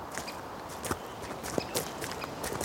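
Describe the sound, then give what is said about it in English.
People walk on a path during a hill walk, their footsteps a faint, irregular run of soft crunching steps with no talk over them. “I can walk with you if you like. That'd be great. Fantastic. Let's go.”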